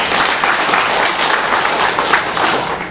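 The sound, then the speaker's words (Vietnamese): Audience applause at a religious talk: dense, steady clapping from many hands that stays loud and even throughout, with no voices over it. “Một tràng pháo tay thưa anh chị.”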